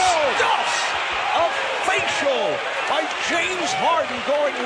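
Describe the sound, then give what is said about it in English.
Slam of a basketball dunk by James Harden over Draymond Green in a Rockets–Warriors game, heard amid a loud, continuous crowd roar with shouting voices. “We all know that James Harden can hit threes, but this time, he was able to go over Draymond Green and dunk. Here's Harden with the drive. Bam!”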